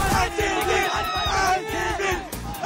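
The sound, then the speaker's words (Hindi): Cricket fans shout and chant outside Narendra Modi Stadium in Ahmedabad, a loud massed crowd whose yells rise and fall in rhythmic bursts, with brief dips between the chanted phrases. “Ahmedabad के Narendra Modi stadium के बाहर fans का ये शोर, ये जोश, ये जज्बा”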